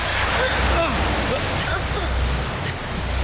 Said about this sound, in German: Die Flut ist nun nicht mehr aufzuhalten.